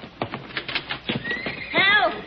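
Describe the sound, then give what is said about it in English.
A horse whinnies at a corral after dark: a high, wavering neigh near the end, after a run of soft rhythmic knocks. “Oh, something's at the horses.”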